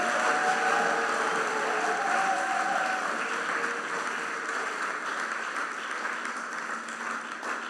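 A church audience cheering and applauding, dense steady clapping from many hands that carries through the whole stretch and eases off slightly toward the end, with some voiced tones mixed in early on.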